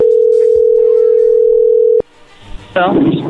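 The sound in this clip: A steady telephone dial tone sounds as a call is placed. The loud, unbroken mid-pitched tone holds for about two seconds, then cuts off with a click, followed by quieter line noise.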